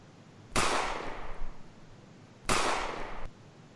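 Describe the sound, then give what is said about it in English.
Two gunshots ring out in a neighborhood, each a sharp crack with a long trailing decay, about two seconds apart. “They're shooting all over the neighborhood.”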